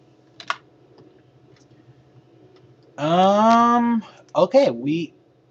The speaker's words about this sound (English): Let me see, did I type that right?